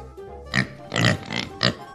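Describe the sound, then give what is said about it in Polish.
Pig oinking: a few short, nasal grunts in quick succession, fairly loud and clear, with no talk. “To jest świnka.”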